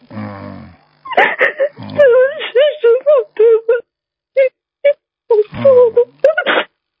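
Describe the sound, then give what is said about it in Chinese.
A person cries in a string of short, wavering sobbing bursts separated by brief pauses. The voice breaks and catches between them. “不要哭了啊”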